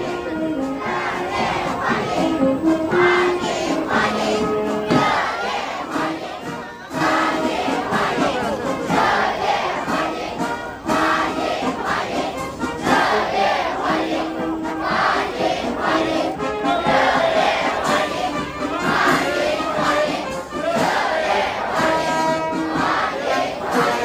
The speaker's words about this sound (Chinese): 我们继续来听香港国际机场的现场欢迎的声音和乐队的演奏，欢迎的人群。